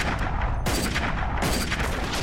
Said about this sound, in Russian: вставив его в винтовку, передергивает затвор. Стреляет.